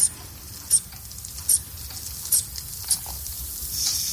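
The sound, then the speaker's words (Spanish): A blood pressure cuff being inflated around a thin arm, heard as an evenly spaced series of short, squeaky puffs from the pump, fairly faint over a soft background hiss. “Vamos a ver, vamos a apretar un poquito el manguito, ¿eh?”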